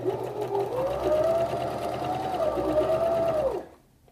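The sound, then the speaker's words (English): A sewing machine stitches fabric, sewing a 90-degree corner before running in the opposite direction. Its steady whirring drone carries a wavering tone and then stops abruptly just before the end. “And now, once the needle is holding the fabric, I can raise the presser foot and turn the fabric towards me like this, so I'm now going in the opposite direction. And I formed a 90 degree angle with my stitching.”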